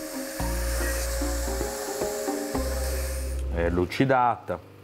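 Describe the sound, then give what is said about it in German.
A machine polishes a hardened knife blade with a steady, humming whine rich in overtones, briefly dipping a few times. A voice speaks near the end. “Die fertig gehärtete Klinge wird nun an der Maschine poliert.”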